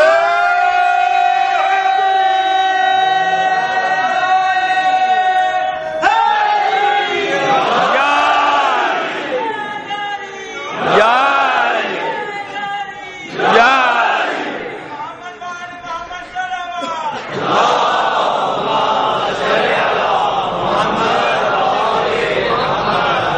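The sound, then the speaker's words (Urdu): A crowd at a Muharram majlis chants the Haidari slogan. A sustained voiced call opens, then many voices roar back in a run of loud, ragged chanted bursts that swell and subside, ending in dense shouting. “جب تک وہ حیدری نعرہ نہیں لگے گا میری آواز نہیں نکلے گی”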